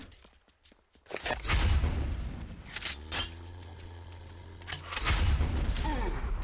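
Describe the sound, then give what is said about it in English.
Explosions in a video game, from a grenade: a few heavy, booming blasts with deep rumbling tails, separated by short quieter gaps. “Ooh, grenade.”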